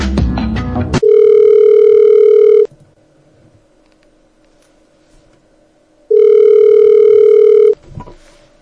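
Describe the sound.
Two long, steady, buzzing ringback tones of an outgoing telephone call, each lasting about one and a half seconds and separated by a long quiet pause. Brief other sounds come just before the first tone and after the second.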